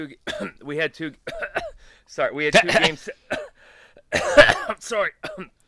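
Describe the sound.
Someone clears their throat in several harsh, scratchy bursts, with talking before and after.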